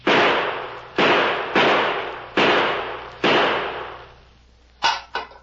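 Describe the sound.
Gunshots fired at a tin can lying near a walled cistern: five loud, sharp bangs, each ringing out into a long decay, then two quicker, smaller cracks close together at the end.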